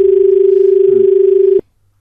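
A steady, low telephone line tone hums evenly for about a second and a half as a phone-in call to a farm advice programme connects, then a sharp click cuts it off into silence.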